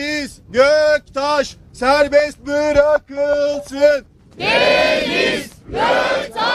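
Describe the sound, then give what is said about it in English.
Protesters chant a two-part slogan in unison outside an Istanbul courthouse in the rain, in loud rhythmic bursts with short gaps. Broader, noisier crowd shouting follows. “what you heard there were chants of Free Deniz Göktaş”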